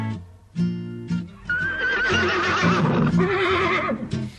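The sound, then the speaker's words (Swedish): A horse whinnies in a long, shaky, high-pitched neigh of about two seconds, after a few short, low tones. “Ute på landet går hästen och fölet.”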